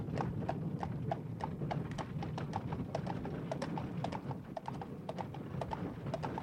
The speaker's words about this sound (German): Man hatte sie gewaltsam in die Kutsche gezerrt. Zu Pferde, in Reisewagen brachen die Verbannten auf.